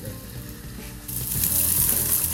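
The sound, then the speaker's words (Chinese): Sizzling of rehydrated dried shiitake mushroom strips stir-frying in hot oil. A dense crackling hiss swells louder about halfway through and keeps going without any talk. “是，香菇丝就直接下。 好，爆香。”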